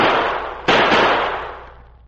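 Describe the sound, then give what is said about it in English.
Gunshots from a revolver fired by a stranded rider in the desert: sharp, loud bursts, the second hitting harder, each trailing off into a long, fading rumble of decay. “Three bullets left, Silver. I'll fire them now.”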